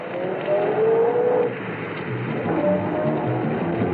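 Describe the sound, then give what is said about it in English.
A car engine drones as the car pulls away and turns a corner: a loud, continuous motor sound that swells slightly in level and then holds steady. “I watched him pull away and turn the corner.”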